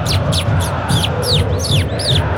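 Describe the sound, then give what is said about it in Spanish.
A bird call: a rapid series of many high, sharply descending chirps repeating at a quick, fairly regular pace over a constant low background murmur. “El pájaro es chor. Ah, es el pájaro chor, sí, sí. Es un pájaro.”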